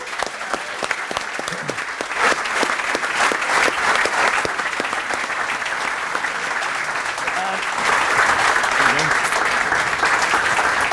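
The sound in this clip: Steady applause from an audience at a live show in Dublin as a former Gaelic football player is brought up on stage. Many claps blend into a continuous, even wash that holds for the whole stretch.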